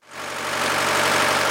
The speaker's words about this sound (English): Pumps are bringing salty groundwater, called brine, to the surface,